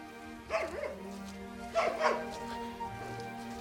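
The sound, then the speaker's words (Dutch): A farm dog whines and whimpers at being left behind in the farmyard, giving a few faint, high, wavering cries separated by short pauses, with no talk over them. “De hond vindt het jammer dat hij niet mee mag, maar die hoort wel op de erf te blijven.”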